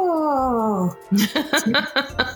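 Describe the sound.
Dog howling along, a single sustained tone sliding steadily down in pitch for nearly a second, followed by people talking.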